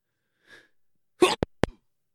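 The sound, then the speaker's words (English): One big sneeze: a sharp, breathy burst followed by a couple of short voiced sounds after a brief faint noise. “Whoa, that was a big sneeze. That was a sneeze. Did you hear it? Sorry, I tried to mute that.”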